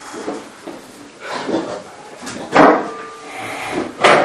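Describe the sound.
A door being closed: a few dull knocking thumps, the loudest two standing out near the middle and at the end, with faint background noise between them.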